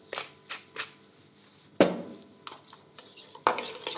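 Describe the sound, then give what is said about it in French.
Utensils clink and scrape against a bowl while mackerel ceviche is mixed with lemon, arugula, radish and redcurrant. A few soft taps lead into sharper metallic clinks, quiet overall and with no talk. “Là, on reste vraiment sur le macro, le citron et la roquette et le radis. Et la groseille pour apporter un, côté un peu d'acide. Donc là, juste mélanger, tout simplement.”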